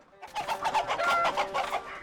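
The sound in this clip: A rooster clucks on a farm: many short, throaty clucks follow one another in a quick, uneven rhythm, loud and alone with no talk.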